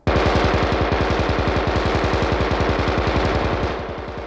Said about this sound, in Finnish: Ottakaa jyvälle, mutta antakaa konekiväärin aloittaa. Antakaa kiväärin, niin minäkin.